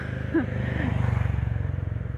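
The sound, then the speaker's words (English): Road traffic on a busy road rumbles with a steady low engine drone that swells slightly through the middle, joined by a brief higher sound near the start. “I got out, and this is a road with a lot of vehicles.”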